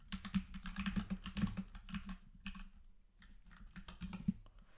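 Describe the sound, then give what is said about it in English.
Fast typing on a computer keyboard makes many quick, light key clicks in dense, irregular bursts with a few short pauses. The sound is faint and has no talk over it. “let me type this in really, really quickly.”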